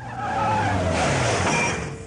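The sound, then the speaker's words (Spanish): Loud tire squeal as a pizza delivery car brakes hard on a street, a sustained screech of about two seconds with a low engine rumble beneath it, no voices. “El auto repartidor de pizzas frena.”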